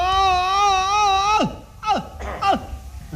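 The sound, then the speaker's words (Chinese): A voice imitates exaggerated Peking opera stage crying in the old-male-role style: a long, wavering wail held for over a second that drops sharply in pitch, then a few shorter sobbing cries that also fall. “京戏的这个哭是用了夸张的手法。 哦， 跟我们生活中的那个哭啊有很大距离。”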